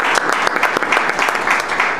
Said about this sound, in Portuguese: Eu vou pedir uma salva de palmas pelo teu trabalho.